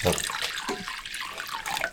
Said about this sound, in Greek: Χλιαρό το νερό. Λίγο χλιαρό νερό. Έτσι.